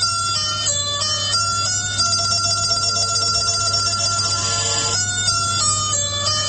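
A telephone rings with a steady electronic melodic ringtone that repeats throughout, with no talk, during a run of repeated nuisance calls.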